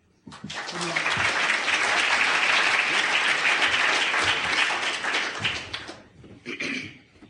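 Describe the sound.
Audience applause welcoming three speakers on a Rapid Referral Program: clapping from many hands swells quickly to a dense, sustained level, holds steady for several seconds, then thins out and tapers off near the end.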